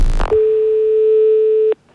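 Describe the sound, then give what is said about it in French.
Telephone tone while a call is dialed: a brief clatter, then a steady single-pitch tone that holds for over a second and stops sharply, followed by faint low noise. “Je vais composer le 17, monsieur.”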